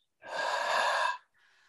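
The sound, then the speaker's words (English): A deep breath drawn in through the nose in a guided breathing exercise: one smooth, airy inhale lasting about a second, followed by a faint trailing breath. “take a deep inhale through your nose. Fill up your belly, your rib cage, your shoulders lifting up.”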